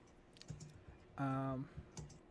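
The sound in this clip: Keyboard typing as a search is entered on a computer: a run of light clicks and taps, briefly broken by a short vocal sound.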